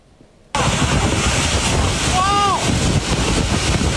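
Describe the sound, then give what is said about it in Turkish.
Roaring wind and rushing water from a deadly typhoon in southern China, a loud, dense noise that bursts in after a brief quiet moment and stays heavy throughout. “Çin'den gelen görüntülere bakacağız. Çin'de yaşanan tayfunda en az 39 kişi hayatını kaybetti.”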